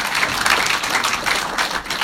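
An audience clapping and cheering for the Lord during a church service, a brief, dense patter of many hands with an uneven, slightly pulsing rhythm at a steady moderate level.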